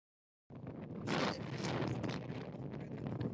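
Wind gusts buffet the microphone outdoors during a walk with a dog, a steady rushing roar that starts abruptly after a moment of silence and swells in a few stronger bursts.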